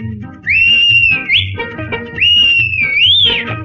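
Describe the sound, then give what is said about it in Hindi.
A train-style whistle sounds in two long, gliding phrases that rise and fall, over a rhythmic musical backing in a song about a train. “कौन दिखाता इसको झंडी, कौन बजाता सीटी”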